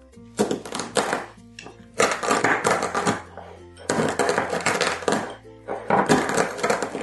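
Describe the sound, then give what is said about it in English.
Coffee beans crushed and ground with a mortar and pestle in a small bowl: four loud bursts of gritty crunching and grinding, separated by short pauses, over steady background music. “This method is the mortar and pestle. First up, put some coffee beans in a little bowl, then get something heavy. We're going to grind them.”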